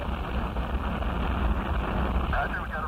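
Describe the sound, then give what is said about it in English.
Apollo 11 rocket engines running at liftoff, a continuous low, rumbling roar that holds a steady level throughout. “0, all engine running. Liftoff, we have a liftoff. 32 minutes past the hour. Liftoff on Apollo 11.”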